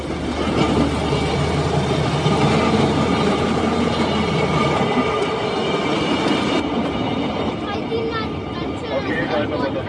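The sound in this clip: A rail vehicle running at about 40 km/h makes a loud, steady rumble and rattle of wheels on track, with faint metallic squeal and clatter throughout.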